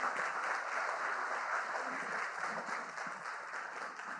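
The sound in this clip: A church audience applauds steadily as a couple is welcomed to the stage. The dense, even clapping holds for about four seconds and thins slightly at the end.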